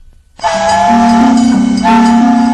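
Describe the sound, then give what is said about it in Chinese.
A train horn blares loudly as a freight train slowly enters a station. The sustained two-tone blast starts abruptly, dips briefly, then resumes at full strength. “保定府车站内，一列货车缓缓进站”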